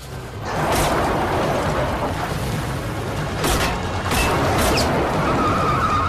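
Gunshots fired at a car speeding away: a few sharp bangs punctuate a loud, continuous rushing roar.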